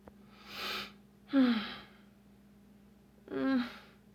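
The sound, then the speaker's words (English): Slow, deep breathing, in and out, from someone relaxing while being held: three soft, breathy swells with pauses between, the later ones carrying a faint voiced, sigh-like edge, all quiet. “feeling me breathe, inhaling and exhaling deeply as I relax into you”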